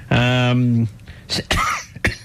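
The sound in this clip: Someone coughs and clears their throat after swallowing a fly. A drawn-out voiced groan comes first, followed by a few short, harsh bursts from the throat.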